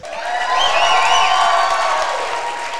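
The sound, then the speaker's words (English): Students cheer loudly and steadily for a newly introduced speaker, a dense, sustained roar of crowd voices with high whoops rising over it, holding its volume for the whole stretch and easing slightly at the end. “For a hot second, I got super nervous that something was structurally wrong with this building when I did your intro, because it got real loud in here. I like that, the students supporting each other.”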